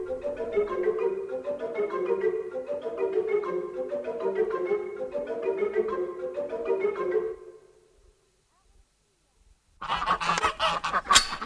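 Rhythmic honking calls of farmyard poultry, many loud repeated calls in a steady run, followed by a short silence and then a burst of rough noise.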